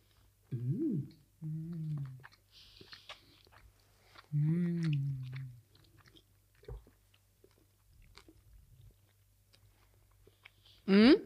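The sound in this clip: Biting and chewing chocolate with fleur de sel and almond: soft crunches and mouth noises, fairly quiet, broken up by several short voiced murmurs.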